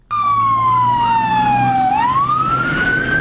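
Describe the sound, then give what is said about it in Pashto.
An emergency siren wails at a suicide bombing site near Kabul's international airport, where fire engines and ambulances responded. A single loud tone glides slowly downward, then climbs back up, over a low engine rumble. “په کابل کې د نن ورځې انتحاري حملې او د پیښې په سیمه کې د اطفایو او امبولانسونو غږونو”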